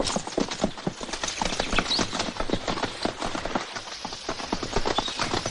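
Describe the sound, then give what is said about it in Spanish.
Horses' hooves clip-clop as two riders continue on horseback through the countryside in the 1978 adventure film Curro Jiménez, many quick, uneven knocks overlapping in a busy, ongoing rhythm. “Al día siguiente, Araceli y el hombre de la raja en la frente salen de la venta y continúan cabalgando.”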